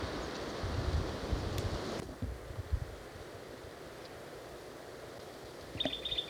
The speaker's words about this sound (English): Wind's blowing strong.